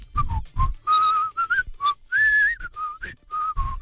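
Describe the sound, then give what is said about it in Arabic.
A person whistles a tune from a film alone, with clear high notes in short phrases, some held and gently bending, separated by brief breaths. “يا لهوي ريق نشف, وكنت بسال دي صفاره من فيلم ايه”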